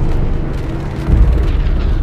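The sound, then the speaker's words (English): Naval guns boom across the sea: a deep, rumbling low-end roar with one heavier thudding blast swelling up partway through, then settling back into the rumble. “Out across the sea, guns sparkle and boom in all directions.”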